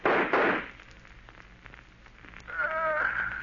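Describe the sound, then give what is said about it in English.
Gunfire in a gangster shootout, with two quick, harsh bursts in the opening half-second followed by a quieter, noisy stretch. “If you will shoot, I will. I'll get him even if I can't see him.”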